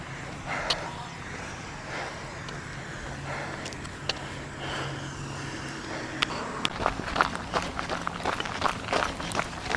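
Footsteps of a runner on Victoria Drive during an unscheduled walking break. The steps are sparse and irregular at first, then grow more frequent and distinct toward the end.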